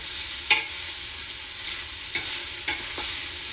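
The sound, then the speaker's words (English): A wooden spatula stirs food in a pan of hot melted butter: a soft, steady sizzle runs throughout, broken by a few faint scraping clicks of the spatula against the pan. “And we're just gonna mix them up for a second. Sort of get all the heat and butter distributed.”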